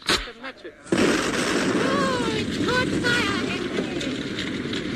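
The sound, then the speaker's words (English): Oil on the sea catching fire: after a brief quiet, a sudden burst swells into a loud, sustained crackling roar, with a man's voice speaking over the rushing flames. “Let us set fire to it to get rid of it.”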